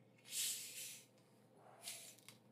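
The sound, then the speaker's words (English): A drink being cracked open: a faint, airy hiss of escaping fizz swells and fades, then a second shorter hiss follows, with quiet clicks near the end. “For those ASMR lovers, we'll just crack this open here.”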